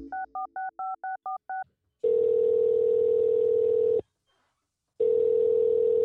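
Telephone keypad beeps as a call is placed: a quick string of short dialing tones, then two long, steady ringing tones of about two seconds each, separated by a silent gap.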